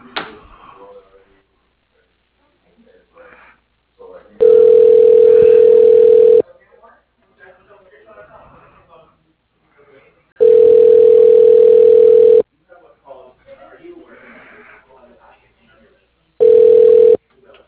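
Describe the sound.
Ringback tone on a phone line while a call is transferred: three long, steady, loud rings, each lasting about two seconds and spaced with gaps of faint voices between them.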